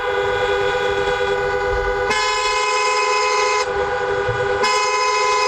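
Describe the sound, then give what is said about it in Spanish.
Car horns honk at the Tarajal border crossing between Ceuta and Morocco, where long queues build. Several loud, overlapping horns blare without a break, their combined tone shifting abruptly a few times over low traffic rumble. “este es el sonido de la frontera del Tarajal”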